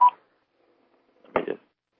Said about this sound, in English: let me put the phone on speak again. Pull it up.